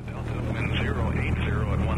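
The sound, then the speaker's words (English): A private plane taking off at the airport in Alpine, West Texas, its propeller engine giving a steady, wavering drone beneath a speaking voice. “at the airport in Alpine, West Texas, where a private pilot is taking off”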